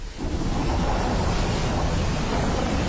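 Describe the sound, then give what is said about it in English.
Winter wind roars across the Wicklow Mountains in a steady, full-bodied rush with no gusting breaks or voices, loud and unbroken from start to finish. “Relax and unwind to the sound of the Wicklow Mountains in winter.”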